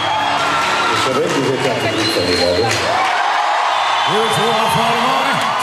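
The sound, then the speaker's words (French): A crowd of 19,000 concert spectators cheers a singer returning to the stage: a steady, loud roar with whoops and shouting voices rising repeatedly above it. “Quand il revient, les 19 000 spectateurs l'acclament rassurés.”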